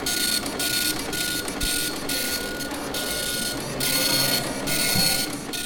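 An Epson LQ 2190 printer prints tweets onto continuous paper at an exhibition, giving off many bursts of harsh, buzzing print-head rattle separated by brief pauses in a steady rhythm.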